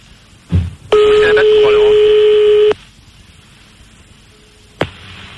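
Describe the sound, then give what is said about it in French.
Fax machine tones on a phone line: one steady, sustained tone with bright harmonics lasting about two seconds, set between short clicks. “Allô? Ah. Il a un fax? Il a mis le fax, le salaud.”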